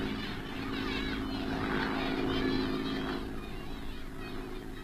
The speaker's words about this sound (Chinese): 快来看日本飞机，你看三架。